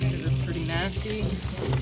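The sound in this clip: Liquid pours steadily as gas and diesel are filled into red metal drip torch cans with long spouts, a continuous gurgling flow with people talking over it.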